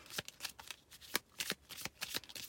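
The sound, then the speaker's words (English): Tarot cards being shuffled and pulled: a quick, uneven series of crisp papery riffles and snaps, each burst short and bright, with no talk over them. “So I'm gonna pull some other cards here.”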